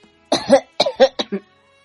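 Light coughing after a cup of tea is gulped down: a short, throaty run of a few coughs close together, fairly loud and with no talk around them.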